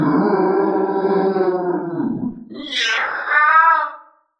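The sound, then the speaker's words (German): A voice imitates an owlbear's scream during a tabletop role-playing game. It starts as a low, drawn-out growling moan, then breaks into a higher, harsher screech that ends abruptly. “Und dann ist der Eulenbär dran. Der schreit Eulenbärsprache.”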